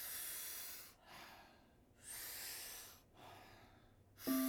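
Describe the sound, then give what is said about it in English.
Breathwork: a few powerful inhales drawn through the mouth alternate with softer, relaxed exhales in a steady rhythm, each breath a rushing, airy hiss. “We're going to be doing about 40 powerful breaths into the body through the mouth. The exhale is a soft, relaxing exhale in between. We do it rhythmically, we do it together. It sounds like this.”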